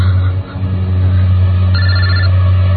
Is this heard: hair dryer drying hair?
no